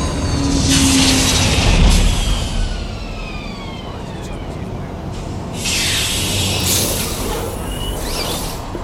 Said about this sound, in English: nice landing, SV-56. It was performed by the onboard computer.